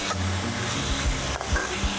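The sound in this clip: Steady sizzle of fermented pork sausage being stir-fried with holy basil, a continuous hiss broken by a few low scraping knocks of stirring, with no voices.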